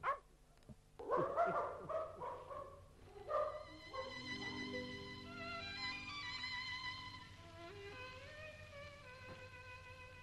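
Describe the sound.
Dog barking in an Arabic radio drama, a brother turned into a dog: a few sharp barks open the scene, then give way to a long, steady tonal sound that fades gradually.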